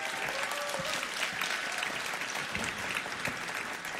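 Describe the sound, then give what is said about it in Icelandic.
Audience applauding a guitarist: a steady wash of many hands clapping, fairly faint and even from start to finish, with no voices over it. “Sigurgeir Sigmundsson, gefum hann gott klapp.”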